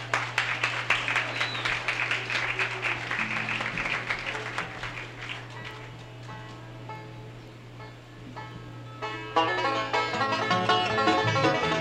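Audience applause at the Bean Blossom bluegrass festival as a bluegrass band from Richmond, Indiana is introduced: dense clapping that gradually thins, then musical notes come in near the end.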